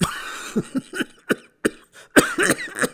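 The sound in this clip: An old man coughing, a run of harsh, rough coughs in an irregular rhythm, around eight short bursts with brief gaps between them, and no talk.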